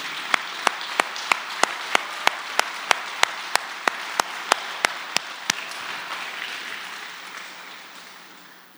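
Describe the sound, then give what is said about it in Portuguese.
A church audience clapping in unison to praise God: sharp, evenly spaced claps in a steady quick rhythm over a broad crowd wash, the claps stopping partway through as the noise fades. “Pode aplaudir o Senhor mesmo.”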